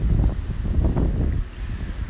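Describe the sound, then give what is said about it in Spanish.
Wind gusts through palm tree branches and buffets the microphone, giving a loud, rough low rumble with a soft rustling hiss above it and no talk. “el viento pegando en las ramas de las palmeras. El viento pegando quizás también en el micrófono.”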